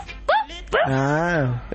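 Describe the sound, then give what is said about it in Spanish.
A human voice imitates a dog barking, mimicking a pet supposedly carried in a bag on public transport. There are two mid-pitched vocal bursts: a brief yip, then a longer, drawn-out, steady bark-like call, fairly loud. “Y ella, incluso cuando viaja en transporte público, pone el bolso en el piso que no tiene perro y cada tanto hace...”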